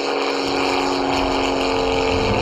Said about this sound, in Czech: když se třeba jede z druhého patra do třetího, kde je výstava letectví, tak se ozývá zvuk přelétávajícího letadla.